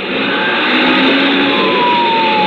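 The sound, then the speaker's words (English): Truck engine roars steadily as a radio-drama sound effect for a runaway truck with no brakes and lost air, rolling at 60-plus, while faint wailing siren tones sweep above the loud, continuous rumble. “Phil floored the gas pedal and pulled out in front. Sirens screaming, red lights flashing”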